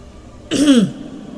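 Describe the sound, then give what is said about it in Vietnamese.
A single gruff throat clearing heard through a device, about half a second long, low and rasping, alone against a faint background. “Giáo sư Phương Tân trong máy khẽ tằng hắng một tiếng”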